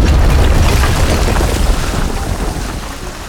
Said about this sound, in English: Our story begins again as our intrepid retail employees watch the garden center explode in front of them.